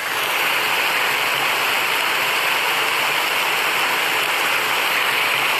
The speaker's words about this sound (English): Now, this is just more rain.